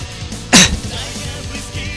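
One short, gruff throat clearing from saliva after eating rasps out sharply, followed by quiet.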